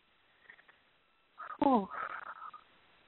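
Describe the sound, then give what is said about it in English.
Breathing in and out during a guided breathing exercise: a faint, airy inhale first, then a louder breath with a brief voiced, falling sigh trailing into a soft, breathy exhale. “Nice inhale and exhale.”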